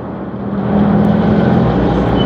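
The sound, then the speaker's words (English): A bus pulls away with a loud, steady low engine drone and broad rumble that swells early, then holds at full level. “As the bus pulls away, Bob gets back in.”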